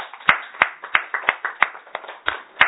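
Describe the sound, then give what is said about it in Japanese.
Hand clapping in celebration of a twelve-year-old's birthday: a steady, evenly spaced run of sharp claps, fairly loud, with no voices. “盛大な拍手でお祝いを”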